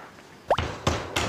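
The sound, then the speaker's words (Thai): A crushed ingredient drops into a pot of water for boiling during Thai cooking, where pandan leaf is added to the pot. A few sharp, wet plops land in quick succession, with no talk. “ทุบพอแตกพอค่ะใส่ลงไปเลยแล้วคราวนี้เราก็ปล่อยให้เขาต้มค่ะ”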